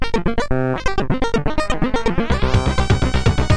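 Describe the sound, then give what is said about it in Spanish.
A computer-composed demoscene music track from a 2026 party in Skövde, Sweden, with buzzy, chiptune-like synth tones pulsing in a fast, steady rhythm. A sustained low layer and brighter tones join partway through. “nuestra canción compuesta por ordenador que siempre ponemos al final. Hoy nos viene de Skjöbde, de Suecia, de la party GERP”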